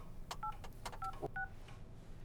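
Three short touch-tone beeps from a telephone as a number is dialled, each preceded by a faint button click, spaced unevenly and quiet, with no voices.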